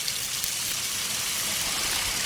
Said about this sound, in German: sollte man sie sicherheitshalber vorher mit Wasser abspülen. Wer weiß, welches Tier da schon dran geleckt hat. Stimmt. Das will ich mir lieber nicht vorstellen. Also kurz abspülen.